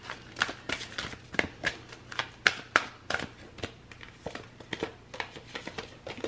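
Tarot cards being shuffled, a rapid run of many crisp papery snaps and riffles in an uneven rhythm, fairly quiet and heard alone without talk.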